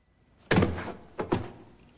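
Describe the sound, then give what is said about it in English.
A gunshot fired through a door: one heavy bang, then two quicker thuds close together, each fading fast against near silence. “She fires right through the door.”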